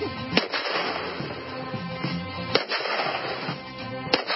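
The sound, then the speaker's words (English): Sharp, loud blasts from a made-in-China double-barreled shotgun being test-fired. A few abrupt reports stand out above a continuous background. “We're going to test out this made-in-China double-barreled shotgun. If anything ever is going to blow up in your face, this is it.”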